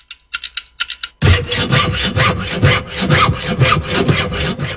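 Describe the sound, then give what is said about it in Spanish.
A hand saw cuts through wood in many rhythmic back-and-forth strokes, each a raspy scrape with a regular pulse. A few faint light taps come just before the sawing starts. “Solamente el serrucho me pone de fondo, no entiendo nada.”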